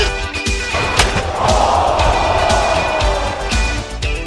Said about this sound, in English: Manipulating the chair, and the reverse exploder onto the chair.